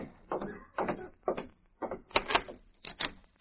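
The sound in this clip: A door being opened: a string of several dull knocks and sharp clicks at an uneven pace, moderately loud, with no voices.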